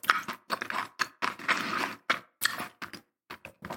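Someone chewing a tangerine: many short, wet bites and squelches in irregular bursts separated by brief pauses, fairly faint, with no talking.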